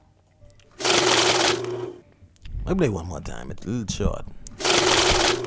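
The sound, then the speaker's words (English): A money-counting machine riffles through banknotes in two fast, loud whirring bursts, each about a second long. A man talks between the bursts. “That's the money counter right there.”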